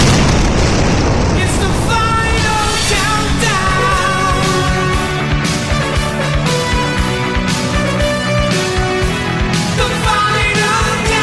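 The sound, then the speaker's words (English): A rocket blasts off into space: a loud, continuous roar lasting many seconds, with rumbling bursts pulsing throughout and no break. “Our space adventure starts in 5, 4, 3, 2, 1, blast off!”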